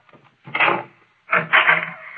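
A door being opened in a radio drama, heard as two drawn-out creaking groans with a short gap between them, the second longer than the first.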